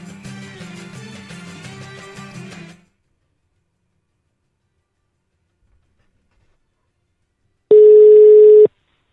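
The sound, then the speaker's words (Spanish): A single long, steady ringback tone of an outgoing phone call, sounding alone after a stretch of music cuts off into several seconds of silence. “Vamos a ver si nos coge el teléfono el amigo Cabrera.”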